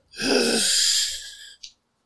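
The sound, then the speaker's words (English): A man gasps for air, struggling to catch his breath: one long, harsh, breathy intake, then a short sharp second breath just after it. “He gasps for air, struggling to catch his breath.”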